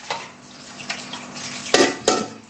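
Household cleaning with bleach water: scattered soft knocks, then two louder clattering bangs of hard objects near the end, with no voices.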